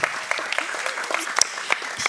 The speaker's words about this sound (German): Voll der Klatsch-Gottesdienst heute.